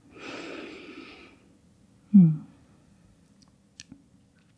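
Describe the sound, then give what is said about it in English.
A deep breath in and out at the close of a guided yoga relaxation: a long, soft, breathy inhale, then a short, louder, voiced exhale, followed by a few faint clicks. “And then take another deep inhale and exhale.”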